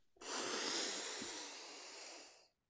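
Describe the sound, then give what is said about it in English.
One big deep breath, an airy, loud rush that starts abruptly, holds for over two seconds while easing slightly, then cuts off; no talk. “So just take a big deep breath in. Just okay. Fill up as much as you possibly can.”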